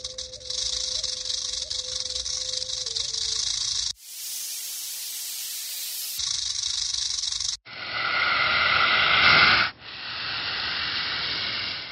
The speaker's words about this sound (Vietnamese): Tiếng vảy rắn cọ sắt cùng với tiếng kim loại chói tai, chỉ có khi rắn thẻ lưỡi nhả tiếng